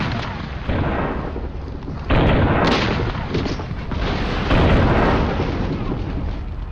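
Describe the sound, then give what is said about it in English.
A ship's broadside of cannon fire as a merchant vessel fires into the side of a pirate ship, a dense, continuous roar of overlapping blasts that grows louder in two steps, with no talk. “Instead of keeping the same course and getting its bottom blown up, the Fetter Mohammed turns and then pumps a massive broadside into the side of the pirate vessel.”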